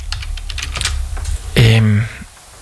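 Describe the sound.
Rapid clicking of a computer keyboard as a song title is typed in, a quick uneven run of keystrokes followed by a brief louder tonal burst, with a voice faintly present.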